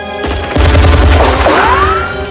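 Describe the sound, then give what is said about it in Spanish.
Gunshot fired by Carl in the 1988 action film Die Hard: a heavy, loud bang with a deep low-end boom, followed by a sustained tonal whine as the sound settles. “Carl dispara.”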